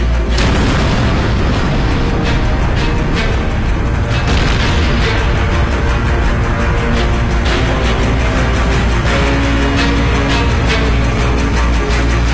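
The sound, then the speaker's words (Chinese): A dramatized atomic bomb explosion sound effect accompanying an account of the 1945 bombings of Hiroshima and Nagasaki. A loud, continuous deep rumbling roar runs throughout, thick with dense crackling bursts and booms, and no voices. “由于日本公开拒绝了波茨坦公告，美国相继在广岛、长崎投下原子弹。”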